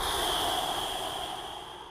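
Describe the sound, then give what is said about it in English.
A long, steady exhale through the mouth during an anti-anxiety breathing exercise, a continuous airy rush that fades slightly toward the end. “Let all the air out through your mouth.”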